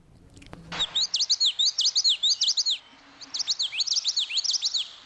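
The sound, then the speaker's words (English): Song of a yellow-throated warbler, a coastal bird, delivered as two quick runs of high, clear, repeated chirping notes separated by a short pause, loud and alone, after a brief soft thump just before it starts. “Here is a bird called a yellow throated warbler, and this bird would be along the same coastal area.”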